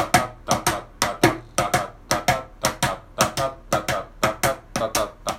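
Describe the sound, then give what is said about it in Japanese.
Shuffle rhythm played by hand on a mini cajon: many sharp, dry slaps in a steady swung long-short pattern, loud and unaccompanied. “はい、これがシャッフルというものですね。”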